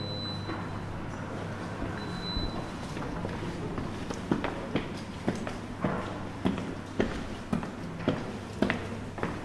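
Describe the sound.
Footsteps climb the grand staircase of the former Hôtel-Dieu-le-Comte, the old historic hospital of Troyes. After a few seconds a steady run of many evenly spaced steps begins over a faint low hum.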